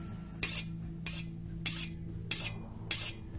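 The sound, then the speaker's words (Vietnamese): A knife sharpened on a whetstone in a basement: five evenly spaced, bright rasping strokes, each a short hissy scrape, over a steady low hum. “Ở đầu bên kia, thằng Đại thì đang cắm cúi loay hoay mài dao. Tiếng mài dao vang lên trong căn tầng hầm ghê rợn.”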